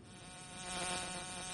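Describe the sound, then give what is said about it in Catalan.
A fly buzzing in a steady, faint drone with a slightly wavering tone, swelling a little mid-clip and heard alone without talk. “És que m'ha semblat sentir una mosca.”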